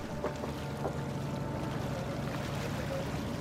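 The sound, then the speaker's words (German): A dark, wooden-planked ship moves on the water past the Kolberg lighthouse on an October day. Its steady, even rumble and rushing wash continue without a break. “Das dunkel beplankte Schiff lässt auch den dicken Kolberger Leuchtturm hinter”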